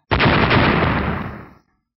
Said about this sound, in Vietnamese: Tiếng nổ lớn vang ra, con rồng cùng với đạo kim sắc đánh ngay phía trước huyết hà, phát ra một tiếng nổ kinh người